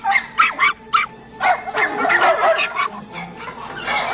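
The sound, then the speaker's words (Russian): A terrier and a Saint Bernard puppy bark at each other in a rapid run of sharp, high yips and barks that soon overlap into a continuous clamour, with whimpering tones mixed in. “Выпрыгнув из клетки, терьер подходит к клетке со щенком сенбернара. Стоя друг напротив друга, они лают.”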